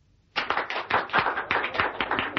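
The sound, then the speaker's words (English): Applause in the reception room of the Bahraini embassy after a Dance of the Seven Veils: dense clapping from many hands that starts abruptly and continues steadily. “The applause that rang through the reception room of the Bahrainian embassy was for Mrs. Peel, who had just completed the Dance of the Seven Veils for the Crown Prince, Ali.”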